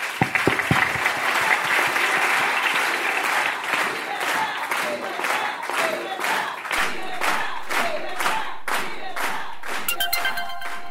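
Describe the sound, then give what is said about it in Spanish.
Loud audience applause for a cheered figure, opening as a dense wash of clapping and then settling into many steady, rhythmic claps in unison that carry through to the end. “Vamos a pedir un fuerte aplauso por Milagro Salas.”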